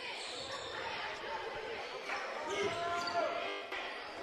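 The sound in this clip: A basketball is dribbled up the court in a Bobcats game, its bounces thudding in a steady rhythm under people talking.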